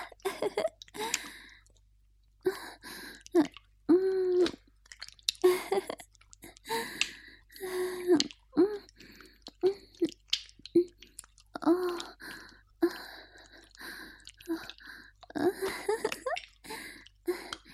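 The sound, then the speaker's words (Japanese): A baby sucks and drinks milk vigorously, with many quick, wet sucking and swallowing sounds and soft breathy gasps in an uneven rhythm, fairly quiet throughout. “チューチューって音が聞こえてくるわ。すごい勢い。こんなにも飲んでくれるなんて”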